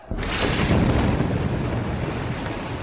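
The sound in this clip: Airstrike explosion bringing down Gaza's tallest building: a sudden deep blast that opens into a loud, sustained rumbling roar, which slowly eases but stays heavy to the end.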